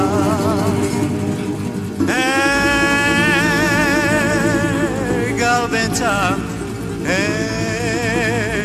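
Sheep bleating: a few long, quavering calls with strong harmonics and a wobbling pitch, heard over a steady low background.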